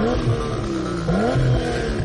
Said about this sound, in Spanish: Sin soltar el embrague, mikel pisa el acelerador con impaciencia.